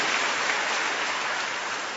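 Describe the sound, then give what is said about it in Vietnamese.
Dense, steady applause from a crowd at a church gathering, blended into a continuous rain-like hiss with no distinct individual claps, holding an even level throughout. “thưa anh chị em, một tràng pháo tay thật lớn cho ba con người này.”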